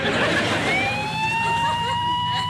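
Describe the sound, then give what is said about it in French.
A police car siren wails loudly, its tone rising and then holding steady over a dense rumble of road noise. “C'est la police? Accélère, on peut les sommer.”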